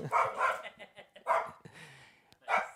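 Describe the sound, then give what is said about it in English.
A dog barks with territorial hostility at another dog passing the window, letting out a few loud, sharp barks at irregular intervals with quiet gaps between them. “my dog knows that that dog is not part of this family, so he's immediately hostile to it and territorial.”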